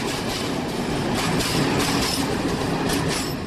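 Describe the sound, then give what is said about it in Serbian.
A train passes on the rails with a steady, loud rumble and a continuous rhythmic clatter of wheels, with no voices. “Idu vozovi. Idu vozovi.”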